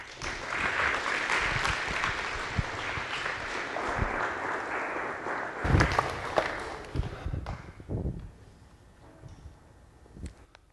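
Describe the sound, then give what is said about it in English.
A church audience applauds to welcome a guest: dense, sustained clapping lasts several seconds, then thins into scattered claps and fades away. “There's just applause with everything. I love it. That makes me feel good.”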